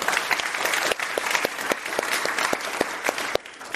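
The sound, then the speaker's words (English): An audience at a Commonwealth Club event applauds to welcome a guest speaker, with dense, continuous clapping and a few sharper individual claps standing out. “So please help me give a warm Commonwealth Club welcome to Ovick Roy.”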